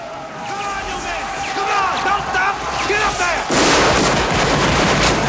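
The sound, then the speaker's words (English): Gunfire from Confederate soldiers firing down from the top of a bank into a moat: a voice talks over a low rumble, then a loud, dense burst of shots erupts and holds to the end. “the Confederate soldiers line the top of the opposite bank and fire down at them.”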